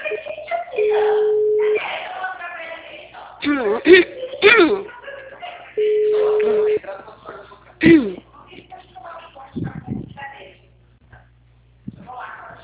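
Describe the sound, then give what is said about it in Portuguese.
Two long, steady ringback tones sound as a Banco Santander correspondent places a phone call. Each tone lasts about a second, with a gap between them, amid other bursts of voice and noise. “Fazer ligação.”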